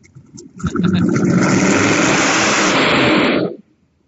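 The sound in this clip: A freshly assembled car engine, running a little smoky with too much assembly lube still inside, roars loud and steady for about three seconds with a rough, gritty mid-pitched tone, then cuts off abruptly.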